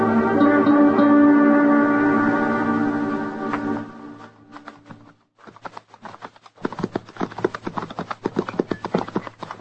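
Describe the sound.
Horses ridden slowly, hooves clip-clopping in an irregular run of sharp knocks after a sustained tonal drone fades out.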